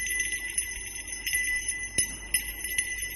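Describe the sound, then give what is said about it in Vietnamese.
A small hand bell shaken hard, ringing continuously with bright sustained overtones and a jangling pulse of many quick strokes, with no voices. “Tiếng chuông vang lên, leng ca leng keng, đối với lũ quỷ thì nghe chói tai vô cùng.”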